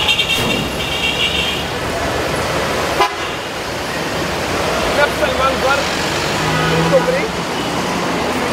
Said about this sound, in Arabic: سيارات ماشية تحت وفي بني آدمين في البشر